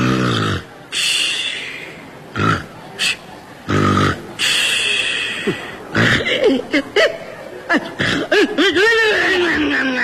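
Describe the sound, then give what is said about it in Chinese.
A human voice imitating loud snoring: a series of rough, raspy snorts and drawn breaths broken by short pauses, ending in wavering, whistling tones. “由于我的呼噜声音太大了，所以我们家不用养猫就没有耗子”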